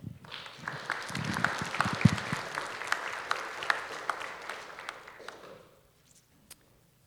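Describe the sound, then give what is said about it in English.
Church audience applauding to welcome a missionary guest speaker: a dense, steady clatter of many hands clapping for about five seconds, then tapering off quickly into near silence. “so please give him a hand and welcome him”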